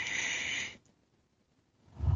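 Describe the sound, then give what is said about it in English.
A single long, deep breath: an airy hiss that stops abruptly, then silence, with a low rustle as it ends. “Why don't we all just take a nice deep breath, cleansing, relaxing breath together,”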